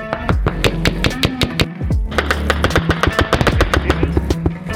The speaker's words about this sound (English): We have effective fire on our position.